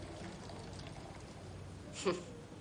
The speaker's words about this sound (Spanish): Tom que sirve unas copas